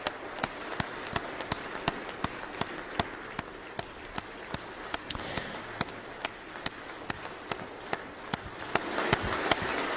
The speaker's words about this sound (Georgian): ხანგრძლივი. ხანგრძლივი აღმოჩნდა საკმაოდ ეს ნაწილი ოვაციების.